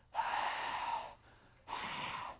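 A group forcefully exhales the heavy Arabic H through squeezed throats as a pronunciation drill, producing two long, breathy rasping bursts separated by a short pause.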